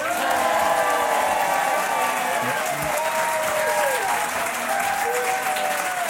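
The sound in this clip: Studio audience applause greets a duo of contestants on a French game show, with dense, steady clapping and some cheering that hold at an even level, while a voice speaks over it.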